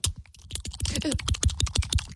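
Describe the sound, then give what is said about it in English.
Mouth clicking of the kind made in ASMR videos: many sharp, dry clicks and smacks in quick, fairly even succession, soft overall and with no talk. “They do the old... The old clicking in the mouth.”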